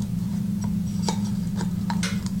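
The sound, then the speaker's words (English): Faint clicks from a plastic stem being screwed into a plastic cup base, a few light ticks in an irregular rhythm over a steady low hum. “So it's like a plastic cup. You just screw the base in, the stem,”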